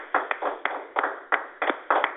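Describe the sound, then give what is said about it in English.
A church audience claps hands in praise: sharp, dull-toned claps in an irregular pattern, with no voices over them. “Receive the man of God with a hand clap of praise, hallelujah.”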